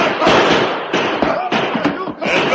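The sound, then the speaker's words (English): Gunfire in a radio western drama shootout between soldiers and outlaws: loud, rapid overlapping shots and bursts that continue almost without pause, with shouting voices mixed in. “Turn on your guns and we open fire! We've been double-crossed! We gotta fight for it!”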